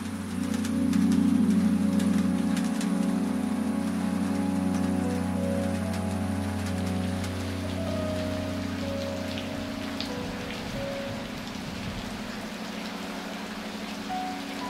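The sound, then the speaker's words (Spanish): Steady rain falls on a surface, a dense, even hiss of drops that stays loud and unbroken for the whole stretch, easing only slightly toward the end. “Y la lluvia hoy podría llegar a ser hasta una mala enemiga.”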